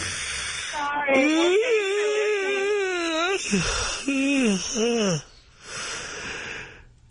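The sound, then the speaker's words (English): A long, drawn-out, voiced yawn wavers like a moan, followed by a few shorter sighing vocal glides over a constant background hiss. “Am I putting you to sleep over there? Yeah. You know, those yawns are contagious.”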